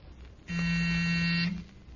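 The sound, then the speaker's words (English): A door buzzer rings once, a steady harsh electric buzz lasting about a second, loud and even from start to stop over a quiet background. “And just a second, he'll ring the buzzer.”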